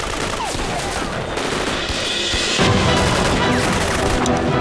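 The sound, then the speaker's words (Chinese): Machine-gun fire from a battle rattles on as a continuous, dense burst of rapid overlapping shots. It is loud throughout and grows heavier partway through. “机枪组停止射击， 停止射击，交给步枪组。”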